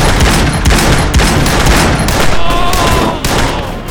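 A loud, dense volley of gunfire fills a street shootout with .44 and .45 caliber guns. The many shots crowd together into a nearly continuous crackling barrage that never lets up.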